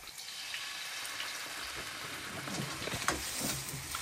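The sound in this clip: Cattail shoots are stir-fried in a wok with chicken stock, making a faint, continuous sizzle with soft scraping from stirring and a brief louder clack near the end.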